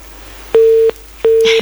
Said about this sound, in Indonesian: Terputus ya.